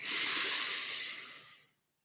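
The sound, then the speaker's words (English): A person draws one long, deep breath in during a meditation breathing exercise. It is a steady, airy hiss that lasts under two seconds, then tapers off into silence. “Inhale. Exhale. Inhale.”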